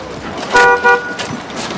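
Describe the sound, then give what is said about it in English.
A car horn sounds as a car drives up: two short, loud honks in quick succession over low road noise. “Michael and Samir drive up.”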